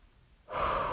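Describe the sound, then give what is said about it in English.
Heavy breathing from someone just out of breath after walking up the stairs: a loud, rough, airy breath bursts in midway after near-quiet and holds strongly to the end. “Sorry, I'm a bit out of breath. I think it's because I just walked up the stairs.”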